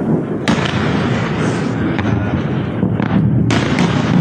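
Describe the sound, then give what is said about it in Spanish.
Explosions from a ballistic missile attack and interceptions over bases in Jordan: a dense, continuous rumbling roar with several sharper bursts cutting through, loud throughout. “También han atacado bases en Jordania, donde se han interceptado hasta 18 misiles balísticos. Este era el sonido.”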